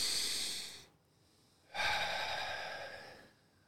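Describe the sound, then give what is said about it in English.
A big, deep breath taken during a breathing exercise: two long, airy rushes of breath separated by a brief pause, the second one longer and steady, with no talking. “So 3, 2, 1, stop. Take a big breath.”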